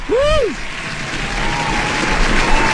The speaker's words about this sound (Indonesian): Sekali lagi, tepuk tangan untuk Gilman semuanya.